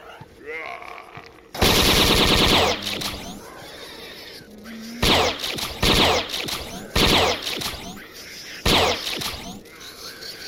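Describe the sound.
An automatic bolt gun fires in a video game: one long, loud, harsh burst of rapid shots, then several shorter salvos separated by quieter game noise.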